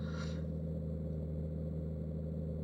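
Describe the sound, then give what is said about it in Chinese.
Low, steady engine hum of a car while driving, constant throughout, with a short faint hiss near the start. “好了好了，妈兑现诺言，妈兑现诺言还不成吗？只不过妈现在真的正在开车呢”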